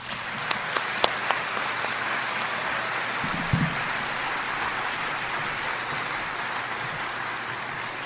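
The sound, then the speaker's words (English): Audience applause welcoming the dean of a divinity school as he takes the stage at a lecture event: steady, dense clapping that holds for the whole stretch, with a few sharper claps standing out near the start. “Now join me in welcoming the 12th Dean of Duke Divinity School, Richard Hayes, and the George Washington Ivy Professor of New Testament, as he brings his welcome and introduces our Gray Lecturer, Dean Richard Hayes.”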